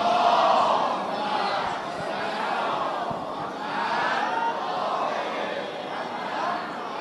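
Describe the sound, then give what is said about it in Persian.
An audience reciting a loud salawat together in unison, a dense chorus of many voices that swells and eases in waves for about seven seconds. “اگر که موافق هستیم میخوایم ازشون سوال بپرسیم، موافق هستیم که به سوالات شما پاسخ بدن، یه صلوات بلند عنایت بفرمایید.”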